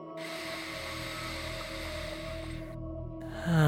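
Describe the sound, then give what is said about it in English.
A deep, calming inhale drawn through the nose during a forgiveness meditation: one steady, airy breath that lasts about two and a half seconds and then stops. “Let's do two more of those cleansing and calming breaths. Inhaling through the nose.”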